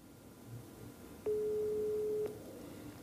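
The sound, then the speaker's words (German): A single telephone ring tone from an unanswered call, one steady mid-pitched beep of about a second rising out of faint background hiss. “Scheint ihm Wer wird Millionär also wichtiger zu sein, als deinen Anruf entgegenzunehmen?”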